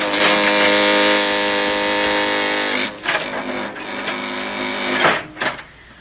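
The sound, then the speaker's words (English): An elevator car descending its shaft gives a loud, steady mechanical whirring hum with a dense buzzing drone for about three seconds. The sound then breaks into rougher rumbling and a few clunking bursts before dropping away at the end. “Now, we just run straight across the bottom of this shaft and out the other side, huh? Yes, Jerry. Hey, the elevator's coming down on us. We can't make it.”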